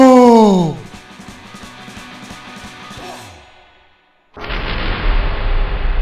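A firing squad's rifle volley during an execution scene: after a stretch of tonal music, a sudden loud blast breaks in and carries on as a dense, sustained rumbling roar.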